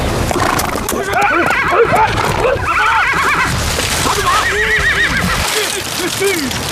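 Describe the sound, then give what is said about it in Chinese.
Zhangbei horses, a Chinese breed, whinny again and again in loud, overlapping neighs that waver up and down over a steady clatter of hooves. “根据现场的情况分析来看，很有可能是中国的张北马。”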